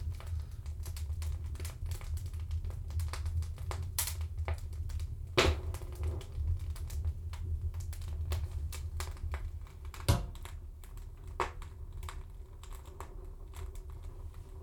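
A cabin wood stove's flue drawing in air makes a faint, steady low rumble, with scattered small ticks and crackles over it.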